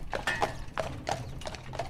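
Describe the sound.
Horse hooves clip-clop as a horse-drawn carriage moves through a car-free island town. The hoofbeats are faint and come in a steady, uneven series of sharp knocks.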